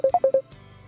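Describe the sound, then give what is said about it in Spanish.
Four quick telephone keypad beeps sound in an even rhythm, followed by a faint low hum on the line. “Uy, tenemos una llamada por aquí, vamos a ver.”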